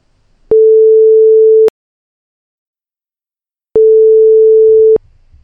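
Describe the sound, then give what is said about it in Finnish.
A telephone ringback tone heard while placing a call: two long, loud, steady single-pitch beeps, each a little over a second, separated by a silence of about two seconds. “mä heitän tosta puhelu ilmoille”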